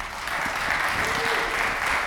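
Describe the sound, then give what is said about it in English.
An audience at a conference applauds its keynote speaker, a steady, dense wash of many hands clapping at an even level from start to finish. “please give a nice round of applause for our keynote speaker today, Frederick Van Johnson.”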